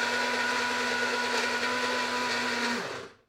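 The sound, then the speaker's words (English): A blender mixes a chocolate dessert with a loud, steady whirring motor roar and a constant hum underneath. After about three seconds it shuts off and the pitch drops as it winds down into silence. “Okay, right, I'm going to start this blendy stuff.”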